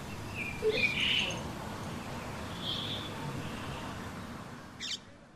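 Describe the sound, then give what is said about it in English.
Birds singing on a quiet, slow morning, with a few faint chirps and short calls spread sparsely over a low, steady background. “It's the sound of birds”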